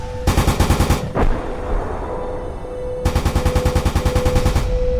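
Wartime machine-gun fire comes in two rapid, loud bursts of evenly spaced shots. A single heavier crack sounds between them, followed by a pause, and the second burst is longer than the first.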